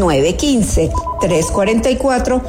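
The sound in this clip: Telephone ringing with steady repeated ring tones, loud and mixed with vocal phrases throughout.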